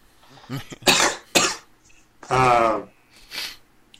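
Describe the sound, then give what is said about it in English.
A person with a worsening cough coughs several times in short, harsh bursts with brief gaps between them. One of the coughs is longer and rasping, and all are fairly faint. “my coughs are starting to get worse”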